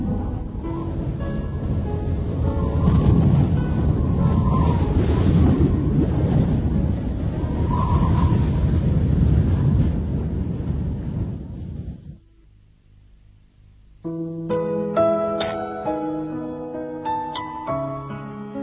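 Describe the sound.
Freezing wind blowing over a penguin colony makes a steady, loud roar for about twelve seconds. It then drops away to a brief lull before music begins.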